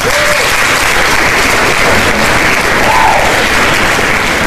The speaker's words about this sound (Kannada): ಯಾರೆಲ್ಲ ಸರಿಯಾದ ಉತ್ತರವನ್ನು ಕಳಿಸಿದ್ದಾರೆ ನಮ್ಮ ಕಡೆಯಿಂದ ನಿಮ್ಮ ಕಡೆಗೆ ಒಂದು ಚಪ್ಪಾಳೆಯನ್ನು ಕಳಿಸ್ತಾ ಇದ್ದೀವಿ, ಸ್ವೀಕರಿಸಿ.